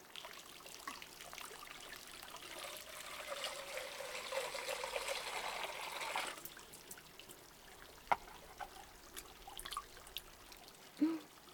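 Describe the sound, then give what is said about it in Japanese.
Hot bath water is poured over the body before bathing, a soft, steady trickling pour that runs for several seconds and then stops, leaving faint drips and small splashes. “掛け湯から、”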